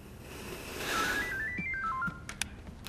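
A telephone ringtone plays a short melody of stepped electronic notes that climb and then drop, fairly quiet, followed by a few sharp clicks near the end.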